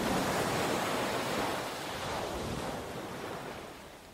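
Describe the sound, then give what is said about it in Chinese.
Ocean waves surge in a steady, broad rushing roar, loud at first and slowly easing off toward the end, with no voices or other sounds on top. “在这一片黑暗里，只剩下海潮的声音”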